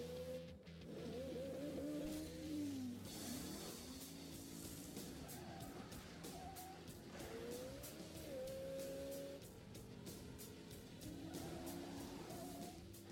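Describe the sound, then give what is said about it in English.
A Ford Mustang engine roars during a film car chase, with revving and squealing tires. The sound is loud and continuous, its pitch sweeping up and down with gear changes and no talk over it. “Poor Mustang. Still running now.”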